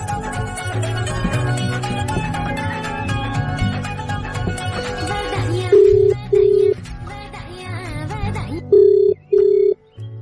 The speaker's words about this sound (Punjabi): Rocky Deol ਹੋਰਾਂ ਨੇ phone ਤਾਂ ਮੈਨੂੰ ਲੱਗਦਾ ਕਿ ਚੁੱਕ ਲੈਣਾ, ਕਿਉਂਕਿ ਰਿੰਗ ਤਾਂ ਜਾ ਰਹੀ ਹੈ।